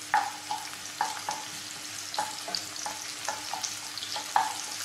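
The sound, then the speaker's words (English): Karela (bitter gourd) frying in olive oil with a small red onion: a steady soft sizzle broken by many short scraping knocks as the pan is stirred. “Olive oil should be not heated too much. And then same time the karela. Just let it a little bit.”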